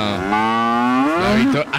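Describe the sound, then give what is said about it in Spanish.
A cow that has grown tame after being fierce when newly calved lets out one long, loud, sustained moo. The low, droning moo is rich in harmonics and wavers slightly in pitch before breaking off near the end. “Esa vaca se volvió mansita.”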